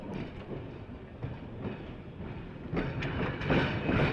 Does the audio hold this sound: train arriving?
yes

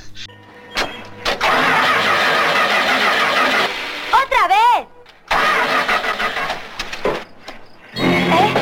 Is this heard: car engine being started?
yes

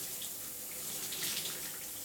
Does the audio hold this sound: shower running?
yes

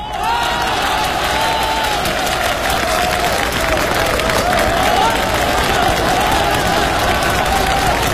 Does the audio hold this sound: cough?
no

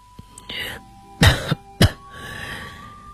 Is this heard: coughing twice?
yes

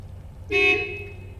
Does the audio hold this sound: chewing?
no

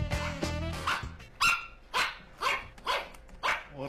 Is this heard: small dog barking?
yes

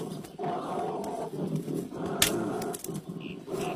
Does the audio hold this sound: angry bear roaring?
yes

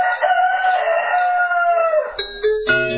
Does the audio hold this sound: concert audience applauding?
no

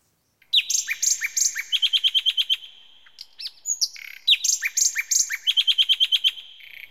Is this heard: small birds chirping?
yes

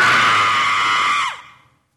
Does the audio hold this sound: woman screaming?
yes

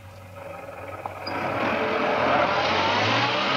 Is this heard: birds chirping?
no

